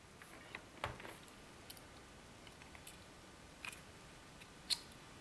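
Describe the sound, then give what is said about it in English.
Faint, small clicks and ticks from a driver taking four Torx screws out of the bottom of a salvaged unit, a few sharp isolated taps scattered over near-silence. “I'm going to take out these uh, Torx screws now. There's four Torx screws at the bottom.”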